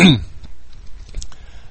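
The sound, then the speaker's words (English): A single short, loud throat clearing at the very start, followed by quiet low rumble with faint small noises. “Excuse me just a minute. Let me clear my throat better.”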